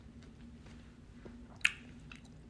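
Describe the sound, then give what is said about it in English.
Someone eats, chewing food softly with faint, wet, squishy mouth sounds and one sharper crunch or bite standing out partway through, all quiet and without talk. “Forgive me if you get a little ASMR moment, but I am eating and I am hungry and I don't care if you don't like it.”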